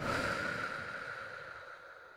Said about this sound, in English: I'm going to breathe in through your nose and then exhale through your mouth.